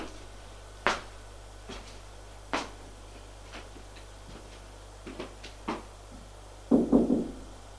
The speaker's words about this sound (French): Maintenant, il va frapper à la chambre de Frédéric.